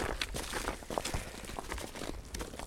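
Footsteps walking outdoors at night in cold air: a faint, steady run of many soft scuffing steps over a dull background hiss, with no voices.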